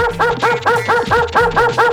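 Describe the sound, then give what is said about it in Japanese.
A dog barks while running toward people, letting out a quick, steady series of many loud, evenly spaced barks. “なんだありゃ、犬か。 ちょっと何あれ、こっち来んじゃない？”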